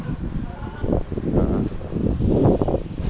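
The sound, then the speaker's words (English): Wind buffeting a microphone outdoors during a walk, a steady low rumble that swells with gusts and never drops away. “Sorry about the wind again.”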